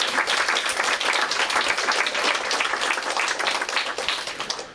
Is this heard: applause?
yes